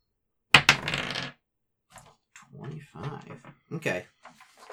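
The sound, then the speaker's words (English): A twenty-sided die rolled for a skill check in a tabletop role-playing game gives one sharp clatter that rattles for under a second, followed after a pause by several people talking. “Give me a check. Roll me a d20.”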